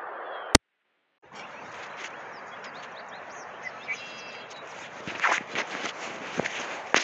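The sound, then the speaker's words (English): Footsteps on a lawn on the grounds of a huge corporation: after a sharp click and a brief silence, a steady rustling walk sets in, with a few firmer steps near the end and faint bird chirps above. “I'm walking on the lawn of some humongous corporation.”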